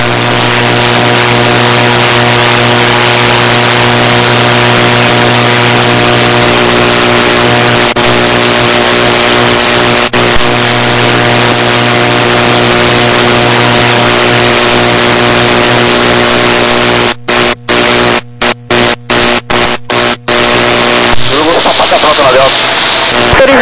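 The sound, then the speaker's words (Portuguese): Aircraft engines running at a loud, steady drone with a constant tonal hum. The sound continues throughout, with a few brief dropouts near the end. “Tá fechando os motores.”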